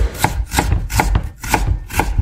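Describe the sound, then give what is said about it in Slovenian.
A knife chops garlic or onion on a board in a steady, even rhythm of solid thuds, each with a crisp knock, heard alone. “Če ste ugotovili, da je tole saklanje česna ali pa čebule”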